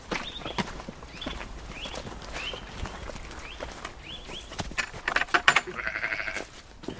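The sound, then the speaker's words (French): A ewe bleats outdoors on a frosty, sunny day, letting out a few short, repeated calls mixed with scattered light tapping clicks, with no talking. “Et puis il y a la brebis qui nous accueille.”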